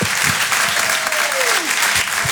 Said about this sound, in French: Faites un maximum de bruit et encouragez, s'il vous plaît, PV sur Rire et Chanson.